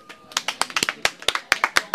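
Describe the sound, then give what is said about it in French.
Scattered, crisp handclaps from an audience applauding on request. The claps are irregular and come in many separate sharp strikes, fairly quiet overall. “Est-ce que vous pouvez m'applaudir, s'il vous plaît?”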